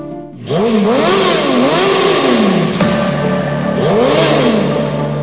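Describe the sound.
A motorcycle engine revs hard again and again, its pitch swooping up and falling back in several surges. The loud, gritty roar carries on alone without a pause.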